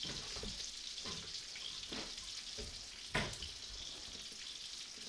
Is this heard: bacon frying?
yes